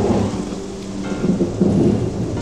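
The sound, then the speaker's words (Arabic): A storm with wind and rain, a loud continuous roar of rain and gusting wind with deep rumbling swells throughout. “وهبت الرياح، وتخبوا بمكان بعيد عن المطر حتى يرجعوا يقدروا يكملوا طريق.”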